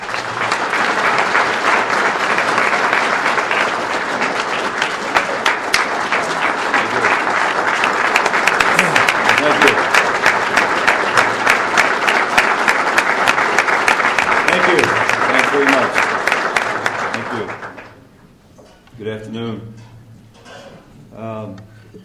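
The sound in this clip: An audience at a Rotary event applauds to welcome a speaker, a dense, sustained burst of clapping lasting about seventeen seconds before it fades and a single voice begins talking.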